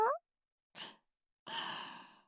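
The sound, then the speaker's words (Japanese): A deep breath taken during a calming exercise: a soft, brief inhale, then after a pause a longer, airy exhale that slowly fades, with a short voiced sound at the very start. “深呼吸できてえらい。”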